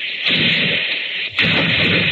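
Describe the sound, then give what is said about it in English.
Artillery guns in Regent's Park, London, fire two loud booms. Each one opens into a sustained hissing roar that runs on until the next shot. “There's the Regent's Park guns opening up again. My two teeth rattle and shakes the hats off the dummies' heads.”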